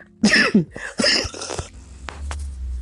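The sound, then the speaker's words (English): Coughing after choking on an irritated throat: a few harsh, loud coughs in close succession, followed by fainter throat-clearing and rough breathing. “Okay, so I just choked. Pardon me, I'm so sorry.”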